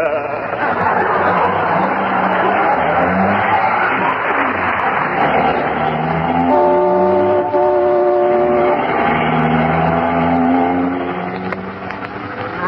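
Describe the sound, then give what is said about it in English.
Car speeding through traffic, a loud, steady rush of engine and road noise that runs continuously and never lets up, with sustained tonal notes sounding over the top. “Isn't he driving awfully fast, dearie? I'll say he is. We just went through a stoplight.”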